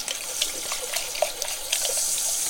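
Running tap water washes a vase-like glass bottle used for iced coffee. The stream is a steady, fairly loud rush with small scattered splashes as water hits the glass.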